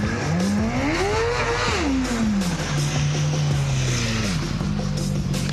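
A motorcycle engine revs as the throttle is opened, giving a loud, continuous tone that climbs in pitch, falls back, holds steady, then drops again.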